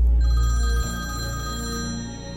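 A telephone rings with a bright electronic ringtone, a sustained, steady tone running through the whole clip, heavier and rumbling low at the start.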